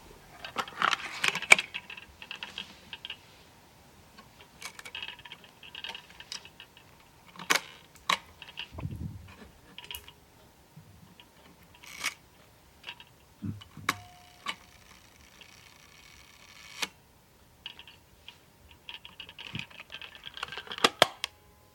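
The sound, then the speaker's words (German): An old Voigtländer Bessa folding camera is opened and its shutter released at a fiftieth of a second. Scattered sharp mechanical clicks, snaps and faint rattles come at irregular intervals, quiet and alone, with no talk. “ich habe mal ein Geräuschrätsel aufgenommen von meiner alten Vogtländer Besser, Klappfalter. Man hört das Aufklappen, Auslösen einer 50stel Sekunde und eine Sekunde dann das Zuklappen.”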